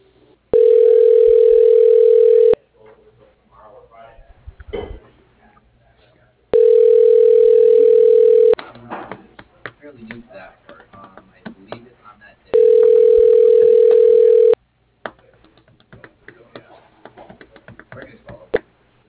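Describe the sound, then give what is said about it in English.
Telephone ringback tone of a call about to be forwarded to voicemail, three long steady rings of about two seconds each, with faint voices and clatter in the gaps between them. “Your call is being forwarded to a ShoreTel voicemail system.”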